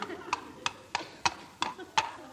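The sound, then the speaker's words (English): Hooves of an unshod horse clip-clopping as it walks into a courtroom: six sharp, evenly spaced knocks in a steady walking rhythm, fairly loud and clear. “I'll call my horse as a witness. Let my horse in. Here we are, Your Honour.”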